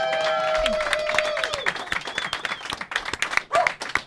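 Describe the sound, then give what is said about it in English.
Audience applause at a live taproom show for a brewery co-owner: many quick, sharp claps build after the first second and continue unevenly, mixed with crowd noise and a faint voice. “I think you guys want to clap for him.”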